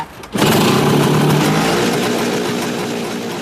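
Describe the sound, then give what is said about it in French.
An original Cezeta two-stroke scooter engine bursts into a loud, buzzing, steady roar that holds for about three seconds and eases off only slightly toward the end. “Voilà le bruit de la Cezeta originale, un bruit que la nouvelle version de ce deux roues légendaire ne fera pas puisqu'elle sera électrique et donc quasiment silencieuse.”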